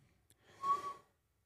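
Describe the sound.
A person whistles a single short breathy note at mid pitch, lasting about half a second, heard alone without talk.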